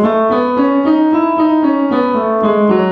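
An E scale is played on a sustained-tone musical instrument as a smooth stepwise run of about ten even, clear notes, each held briefly and joined to the next, with no voices.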